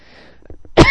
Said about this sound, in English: Sorry, I had to cough.